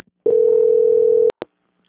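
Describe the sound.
A steady single-pitch telephone line tone sounds during a call transfer. It holds for about one second, then cuts off, followed by two short clicks.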